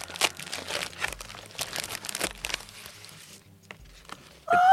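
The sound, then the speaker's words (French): Paper envelope being torn and wrestled open with difficulty, a loud burst of crinkling, crunching and tearing rustles that gradually thins out, then rises sharply again at the very end. “J'aime bien ces enveloppes parce qu'elles sont galères à ouvrir.”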